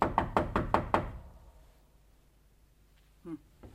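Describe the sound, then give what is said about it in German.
Knocking on a door in a building corridor: a quick, even run of sharp, loud raps, followed by quiet. “Klopfen wir nochmal.”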